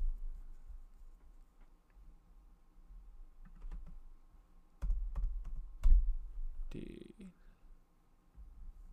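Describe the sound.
Keystrokes on a computer keyboard: uneven runs of sharp, dry clicks, with a louder cluster partway through, under occasional casual talking.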